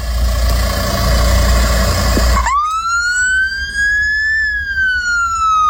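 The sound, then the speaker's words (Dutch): A Norwegian ambulance siren wails loudly after a burst of heavy rumbling noise, its clear tone climbing slowly, then dipping slightly toward the end. “Dit is het geluid van een Noorse ambulance.”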